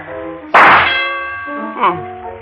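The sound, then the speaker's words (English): A sharp metallic clang as a rifle shot strikes a metal shooting-gallery target, one loud hit followed by a long ringing tail, with voices underneath. “What's the tab for a rifle load, sister? 12 shots and a quarter. That's cheap enough. Watch me shoot.”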